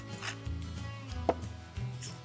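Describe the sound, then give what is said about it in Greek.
Santoku knife chopping dill and parsley together on a board, making a few soft, dull taps over a steady low humming tone. “Και ψιλοκόβο, άνηθο και μαϊντανό μαζί. Ένα επίσης καλό μαχαίρι σαντόκου. Αυτό είναι ιδανικό για τα λαχανικά.”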